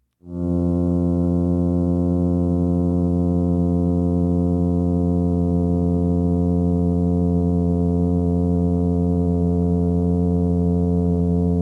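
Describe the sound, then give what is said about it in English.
Low, droning hum of a single plainfin midshipman fish's call, a steady buzzing tone rich in harmonics that starts abruptly and holds unchanged, loud and alone throughout. “This is the humming sound of a single plainfin midshipman.”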